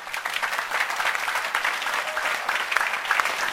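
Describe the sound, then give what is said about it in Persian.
Applause from an audience urged to clap for themselves: a continuous patter of many hands clapping, fairly soft and even, with no voices over it. “یه نکته رو بگم، خودتون رو تشویق کنی”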